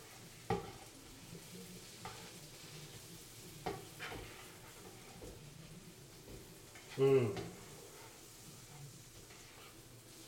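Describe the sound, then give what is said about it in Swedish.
Onions frying in a pan are stirred, with scraping and knocking of a utensil at irregular intervals over a continuous soft sizzle. “Får ta och röra lite på. Röra lite i den här löken så att det blir bra.”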